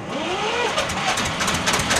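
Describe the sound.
A moor railway train's engine starting up, giving a loud, continuous rumbling drone with a rough low throb.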